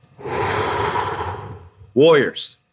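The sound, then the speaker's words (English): A deep breath: a long, even, noisy inhalation lasting over a second, then a brief pause and a short, louder, voiced exhale like a sigh. “Take a deep breath.”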